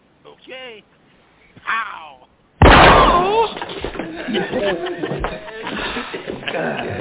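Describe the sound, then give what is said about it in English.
A single sharp, loud gunshot strikes someone in the foot, an old woman, in a Harlem confrontation. It cuts in abruptly after brief exchanges of talk, then gives way to a clamour of voices and noise. “You didn't have to shoot that old lady in the foot, man.”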